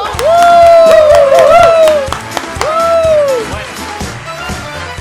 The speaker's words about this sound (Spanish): Recibamos con un aplauso al veloz JJ Vaquero.